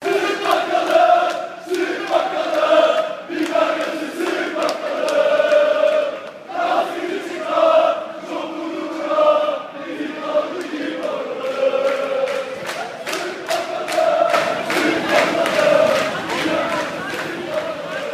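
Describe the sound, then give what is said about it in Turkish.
Football fans chant together while marching from the stadium toward the square in Beşiktaş after a match. Many voices sing loud, rhythmic repeated phrases in unison, continuous throughout, with the crowd's roar swelling and dipping between lines. “Tezahürat 13 Mayıs günü Akaretler'de İnönü Stadı'ndan geriye Beşiktaş Meydanı'na doğru yürüyen taraftarın yaptığı bir”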